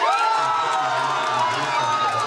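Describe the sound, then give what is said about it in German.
A crowd cheers at an election-night victory party in Schwerin, a continuous loud roar of many voices with shouts and whoops rising above it throughout. “Die AfD in Schwerin auf ihrer Wahlparty im Freudenrausch.”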